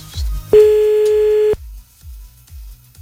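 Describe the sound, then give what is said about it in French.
A telephone ringback tone sounds while calling someone back, one steady, loud single-pitch burst of about a second, set over a low, rhythmic thumping background that continues before and after it. “Attends, on rappelle. Encore un petit coup.”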